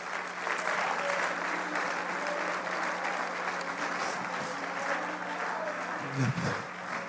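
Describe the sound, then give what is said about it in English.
A church audience claps their hands to the Lord in a long, steady run of dense applause that stays even from start to finish. “I wish somebody would clap their hands unto the Lord.”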